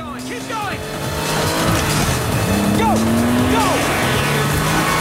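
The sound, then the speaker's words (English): Cars speed and swerve through oncoming traffic in a car chase across a main road into an alley: a continuous loud engine roar with repeated short tire squeals and a longer sustained squeal. “Both cars miraculously slip through the paths of oncoming traffic and reach the alley on the other side.”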